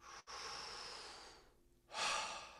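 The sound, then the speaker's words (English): Deep, powerful breaths in and out during a breathwork exercise: a long, rushing breath, a brief pause, then a louder, forceful breath, with no talking. “just do 5 more breaths, each breath a little bit more powerful than the last.”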